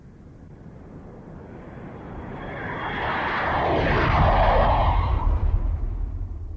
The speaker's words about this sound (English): Listen, this is a plane.